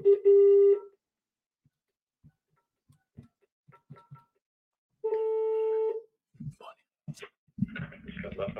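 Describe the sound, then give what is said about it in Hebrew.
Telephone tones as a call is placed: two long steady electronic tones separated by a few faint clicks, then a voice answering the line. “ברגע אני אתקשר עוד פעם לאלה.”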